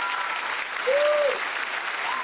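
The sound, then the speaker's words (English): An audience gives a round of applause for a woman preacher at a church service: dense, continuous clapping that holds a steady level throughout and swells slightly around the middle. “Y'all better give the woman of God a round of applause here in the name of Jesus.”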